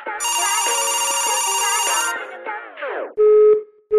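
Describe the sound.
A telephone rings before a prank call, opening with a sustained bright electronic ring of about two seconds, then shorter tones, a falling sweep and a brief loud beep.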